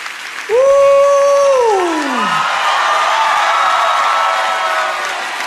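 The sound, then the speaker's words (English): A church audience at a West Virginia revival night claps and cheers. A loud whoop falls in pitch at the start, then gives way to steady, sustained applause and crowd noise. “How about a bigger hand clap for Jesus Christ, head of the church, King of kings, Lord of lords.”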